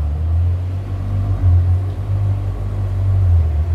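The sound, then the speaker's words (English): A Ferrari sports car turns around in a London mews, its engine giving a steady, low, throaty rumble that swells slightly in loudness, with no voices. “That's a Ferrari, listener, turning around in the mews.”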